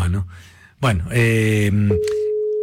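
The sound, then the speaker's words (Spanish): A steady, even-pitched telephone ringing tone sounds on the line of an outgoing call. It enters after a short stretch of other tonal sounds and holds unbroken to the end. “Ahí está llamando.”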